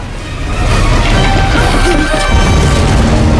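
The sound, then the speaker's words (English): A pit explodes in a fireball inside a jungle cave chamber. It makes a loud, sustained, roaring blast that stays dense and forceful throughout, with crashing, rumbling texture and no clear separate hits. “The pit explodes in a fireball. Lava floods the chamber, which starts to disintegrate.”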